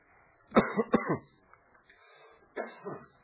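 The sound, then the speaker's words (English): Coughing from someone who has had something go down the wrong pipe: two clusters of harsh, rasping coughs with throat clearing, the first burst dense and the second shorter, separated by a quiet pause. “Excuse me, I had something went down the wrong pipe there”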